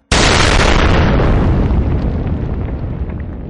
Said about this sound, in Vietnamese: bỗng nghe thấy một tiếng nổ long trời lở đất. Đáy khe núi Gia Nhân sâu vạn trượng đột nhiên xảy ra một vụ nổ dữ dội